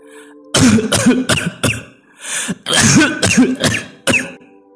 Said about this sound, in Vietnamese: ho một tràng dữ dội, nôn ra máu rồi qua đời.